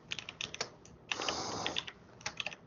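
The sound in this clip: Typing on a computer keyboard: quick, light key clicks in a few short bursts, with one denser run of keystrokes in the middle, fairly quiet and with no voices.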